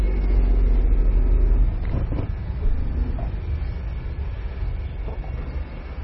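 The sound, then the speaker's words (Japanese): A car engine drones as the car pulls out of a shop's parking lot, a steady low rumble that is loudest at the start and then settles into an even hum with slight shifts in tone; no one speaks. “今出発しました。いい音ですね。”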